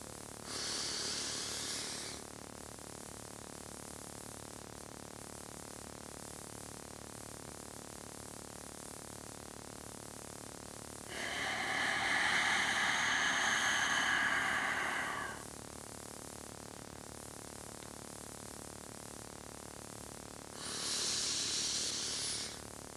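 Deep breaths during a relaxation exercise: three slow, airy, hissing breaths, each lasting a few seconds, separated by long quiet stretches with no talk.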